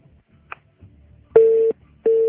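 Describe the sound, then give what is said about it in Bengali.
Telephone tones sound as a phone call is placed: two steady, mid-pitched beeps, each about a third of a second long, separated by a short gap, after a quiet stretch with faint low rustle and one small click. “Okay, so আমি আরেকটা call দিচ্ছি।”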